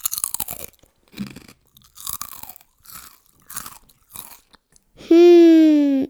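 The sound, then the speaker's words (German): Chocolate popcorn being chewed, with several loud crunching bursts in an irregular rhythm, then a sustained hummed voice that falls slowly in pitch. “Ich habe noch nie in meinem Leben so leckere Schokoladenpopcorn gegessen, sagt Häschen Ingo”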